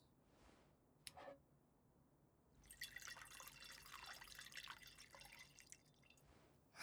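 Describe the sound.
Sake pours into a cup in a quiet, bright liquid trickle lasting about three seconds, with a few soft taps just before it.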